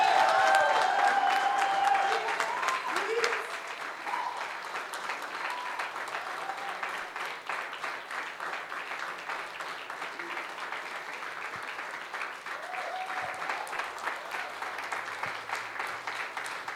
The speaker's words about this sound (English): please stand on your feet and put your hands together for Pastor Edgar Michaels as he comes to share.